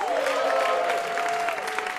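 Audience applause greets game show contestants as they are welcomed, a dense, even burst of clapping that carries through without pause.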